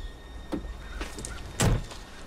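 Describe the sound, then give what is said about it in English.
A stopped car's door opening: a few short mechanical clicks and one louder, low thunk partway through, all fairly quiet, with no voices. “Zooming through the reflection in the mirror to where the car is stopped. The door opens.”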